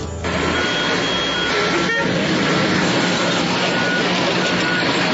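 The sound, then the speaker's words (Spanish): Street traffic at Calle 94 and Avenida NQS in northern Bogotá, by a delayed roadworks site: a dense, steady roar of engines with a few faint horn or beeping tones over it. “Así se escucha hoy la calle 94 con avenida NQS en el norte de Bogotá.”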